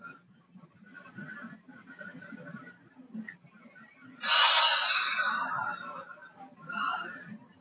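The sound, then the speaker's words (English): A long, deep breath drawn in through the nose, heard as one breathy rush of air that rises out of a quiet, low humming background and then fades. “First, long deep breath from your nose and release from your mouth and just rest, okay? Okay, breathe in.”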